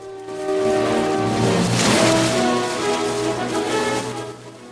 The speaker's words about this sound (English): Robin as he pounds down the beach and launches himself into the grey, uninviting waves.